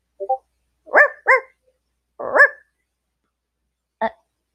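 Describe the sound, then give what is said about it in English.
A dog barks in a few sharp, bright bursts, starting with a quick pair of small yips, then louder separate barks with pauses between them, and one final short bark. “So, why is there a dog here?”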